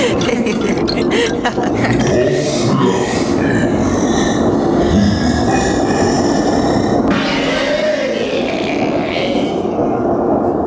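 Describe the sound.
A train runs on rails, giving a continuous loud rumble with rattling, clanking rail noise throughout.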